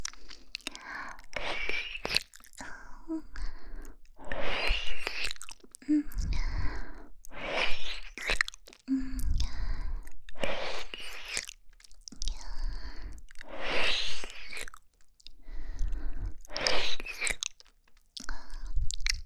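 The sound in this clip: Wet mouth chewing and nibbling sounds on an ear come in close, irregular bursts of smacks, bites and soft crunches. Breathy sighs and faint whispery breaths run between them.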